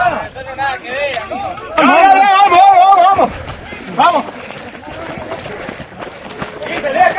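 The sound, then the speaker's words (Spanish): Running footsteps of people racing, pounding steadily beneath a loud crowd whose voices shout and chatter throughout, with a sustained burst of yelling in the middle. “Con el audio del ambiente, los pasos son, mirá, están tratando de correr una carrera que se trae.”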